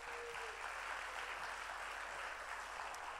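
Congregation applause welcoming a guest preacher who serves in Spain: steady, dense clapping that holds evenly from start to finish, fairly faint.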